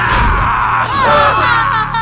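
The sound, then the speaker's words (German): A sudden, loud human scream that holds for about two seconds, with a wavering, tonal pitch that swoops within the cry. “stieß Grobian einen unerwarteten Schrei aus”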